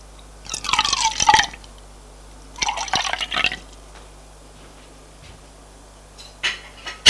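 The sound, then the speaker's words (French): Water being poured for drinking, heard as two short splashing bursts separated by a quiet pause, then a couple of brief faint sounds at the end. “surtout boire de l'eau. Parce que j'ai très soif.”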